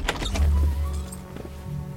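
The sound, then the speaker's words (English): A door being opened: a quick cluster of clicks and knocks, then a low humming whir with a fainter mechanical rattle near the end. “Let us try this door.”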